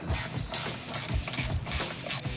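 Rapid ratcheting clicks as a screw is fastened during reassembly of an old stove after body work. Rough mechanical bursts repeat in a quick, fairly even rhythm throughout, with no talk.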